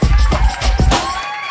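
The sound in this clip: An audience cheers and applauds to welcome a guest, a loud, dense roar of clapping and raised voices that fills the whole short clip without a break.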